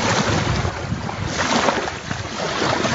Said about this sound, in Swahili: Hapa tuko pembezoni mwa ziwa Edward Panyakakoma.